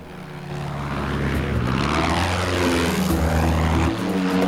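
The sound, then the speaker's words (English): A small yellow propeller monoplane flies low over a jagged, tree-covered jungle ridge, its engine a steady, loud droning hum that swells slightly as it passes. “A small yellow monoplane cruises over a jagged tree-covered ridge, which dips dramatically into a jungle-covered valley.”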